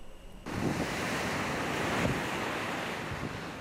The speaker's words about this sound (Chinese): 热带风暴雷切尔强势影响美国加州南部长滩沿岸，海上风浪持续冲击滨海社区，风暴潮猛烈冲刷海岸